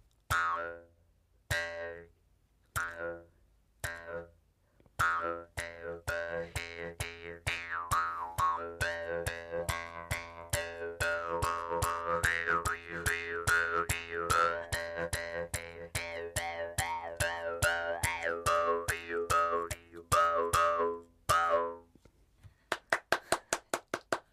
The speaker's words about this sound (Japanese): 紐を口元で引っ張ってその弁を震わせることによって口の中で共鳴させて音を出す楽器ですね。 今日はそのムックリの演奏を先生にまずお願いしたいと思います。